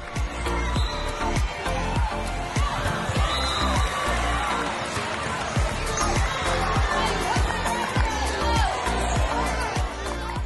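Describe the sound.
Cheering crowd at a Texas school volleyball tournament, a busy, continuous roar of voices with whoops and sharp thuds and squeaks scattered through it.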